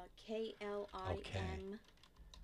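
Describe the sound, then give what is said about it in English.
Computer keyboard typing as a film title is entered into a search, with quick, clustered keystrokes heard alongside people talking. “If you're going to search it, just type in Klimt movie.”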